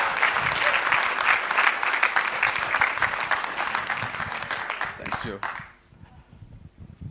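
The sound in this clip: Congregation applause welcoming a preacher to the pulpit at a Sunday-morning church conference session: dense, loud, steady clapping that holds for about five seconds, then quickly dies away to near quiet.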